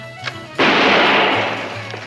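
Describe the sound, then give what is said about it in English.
A gun is test-fired into videotapes: one loud, sharp shot bursts in suddenly, then a long noisy roar decays slowly over a faint low hum. “Watch carefully as I test fire this gun into these videotapes of Barbara Walters' interviews.”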